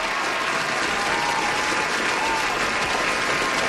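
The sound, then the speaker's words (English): Loud, sustained applause from a crowd, dense and even clapping that holds steady throughout without pause or voices standing out. “Big, massive, huge round of applause”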